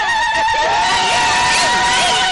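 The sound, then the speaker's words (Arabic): Women ululate at a henna night celebration: loud, continuous, high-pitched trilling cries with a wavering pitch that fill the whole short moment. “صلوا على النبي وزغروطة يا ستات.”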